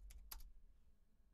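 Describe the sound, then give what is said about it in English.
A few faint, quick keystrokes on a computer keyboard, clustered in the first half-second and followed by quiet. “I'm just typing it in here to the thing.”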